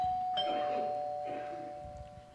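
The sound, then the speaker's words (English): A doorbell chimes at a house decorated for a Christmas gathering. The ring is faint, with a couple of soft tonal strikes that ring out and slowly fade. “Suddenly, the doorbell rings.”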